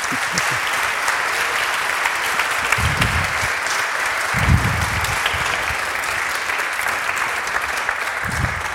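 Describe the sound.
Audience applause greets two magicians, Matthew Tompkins and David Persson, arriving on stage: sustained, steady clapping at an even level, with a few low murmurs beneath.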